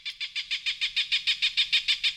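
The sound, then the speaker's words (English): Rapid, evenly spaced chirps from a bird scare machine playing recorded starling, robin and Cooper's hawk calls. The bright, high-pitched notes repeat in a steady pulse, many in quick succession, with no talk. “Carl says, the calls of starlings and robins and a cooper's hawk do the job.”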